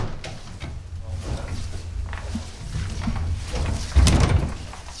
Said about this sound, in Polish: Tak, dźwięk drzwi wejściowych do domu zdrojowego. Drzwi obrotowych. Drzwi obrotowych.